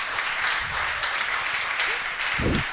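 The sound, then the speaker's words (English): Steady, dense applause from an audience at the Boulevard Bar and Grill, across from a university campus, welcoming a guest to the stage. The clapping stays loud and even throughout, with a few low thumps near the end. “as we welcome in Amanda Whittington to our show. How about a nice hand for Amanda?”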